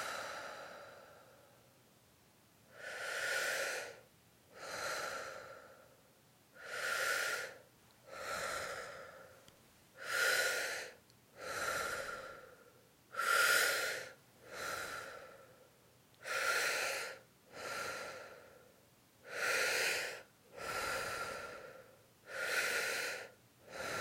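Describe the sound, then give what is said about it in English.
Slow, deep breaths are drawn in with the belly and pushed out through the mouth, producing many steady, airy whooshes in an even rhythm with short quiet gaps between them. No one talks. “use your stomach to pull the air in and push the air out of your mouth. Take a deep breath in and exhale.”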